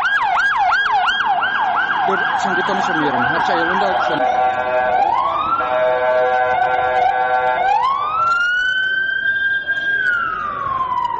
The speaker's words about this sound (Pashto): سیمه ته امبولانسونه او د پولیسو ګڼ موټر ور روانو